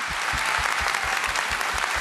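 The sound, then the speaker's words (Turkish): Audience applause for a performer: dense, steady clapping that holds at an even level for the whole stretch, with no voices standing out above it. “Daha güçlü alkışlar.”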